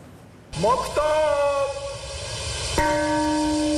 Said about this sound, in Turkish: Çanlar kurbanlar için çaldı.